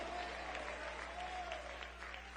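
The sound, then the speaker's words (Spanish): Applause from a church audience giving praise: a faint, steady wash of many hands clapping over a low hum, with no clear breaks. “Dele ese aplauso de gloria al Cristo resucitado.”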